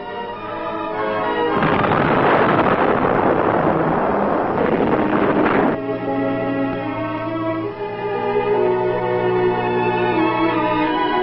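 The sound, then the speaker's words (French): A huge rumbling roar from the first atomic bomb test, set off at night in the New Mexico desert, bursts in loud and broad for about four seconds, then cuts off sharply while steady sustained tones carry on beneath. “La possibilité enfin découverte de diviser l'atome au moyen d'un neutron permit la naissance de la bombe atomique. C'est dans les déserts du Nouveau-Mexique qu'eut lieu de nuit la première expérience.”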